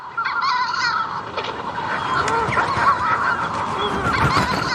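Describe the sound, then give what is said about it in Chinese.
Manx shearwaters calling at a breeding colony on Skellig Michael island, migrants from the Southern Ocean and Brazil. Many harsh, cackling calls overlap in a dense, continuous chorus that stays fairly loud throughout, with no voices. “其实这是一种鸟类的叫声，它们从南大洋和巴西远道而来，到斯凯利格麦克尔岛繁殖育雏。”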